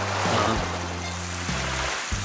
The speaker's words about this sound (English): All at once, my lecture was interrupted by a fire hose torrent of water